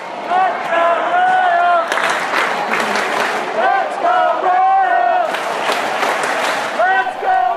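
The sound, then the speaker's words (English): Kansas City Royals fans chant at the K in October, their massed voices rising in repeated sung phrases. Bursts of applause and clapping fill the gaps, and the sound stays loud and lively throughout. “So here's the sound of the Kansas City faithful at the K, keeping it real.”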